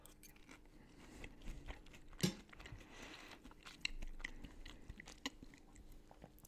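Quiet chewing of a warm bite of rutabaga casserole: faint, soft crunching and moist mouth sounds in an irregular rhythm, with no talk.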